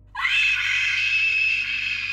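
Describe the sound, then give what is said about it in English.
A woman screams in horror: one loud, high-pitched cry that starts suddenly and is held for about two seconds without any other sound. “The woman on the ground, who had come to her senses, screamed in horror at the sight of the entity that stood over her.”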